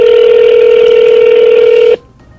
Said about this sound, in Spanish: Está marcando, está llamando, 072.